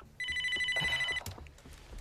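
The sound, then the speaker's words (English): A telephone in a bedroom rings with one steady, bright electronic trill lasting about a second. It then cuts off, leaving faint low rustling. “In her bedroom, Linda sits up in bed. She picks up the phone. In her bedroom, Annie answers the phone from bed.”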